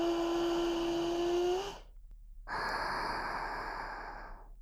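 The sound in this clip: A deep breath drawn in by a person, heard as a long, steady, airy rush with a faint hum. After a brief pause comes another long breathy stretch that slowly fades.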